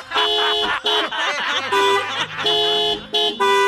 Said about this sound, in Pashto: په دې خوشحالۍ کې یو بل هارن